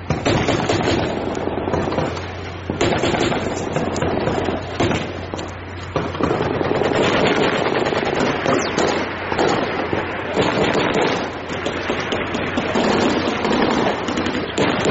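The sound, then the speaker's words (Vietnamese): Gunfire sound effect from an audiobook: loud, sustained bursts of rapid machine-gun-like shots and crackling reports that run almost without pause, with only brief dips in intensity. “Tiếng súng nổ mỗi lúc một dữ dội thêm”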